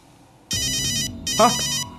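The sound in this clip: A telephone rings with a bright electronic ringtone in two bursts separated by a short gap. A brief voice sound overlaps the second burst.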